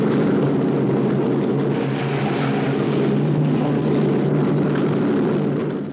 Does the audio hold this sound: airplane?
yes